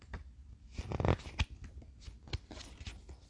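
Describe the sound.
Tarot cards being drawn from a deck during a reading, heard as a run of soft papery rustles and short crisp clicks and slides, irregularly spaced and fairly quiet.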